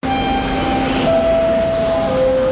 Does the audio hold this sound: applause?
no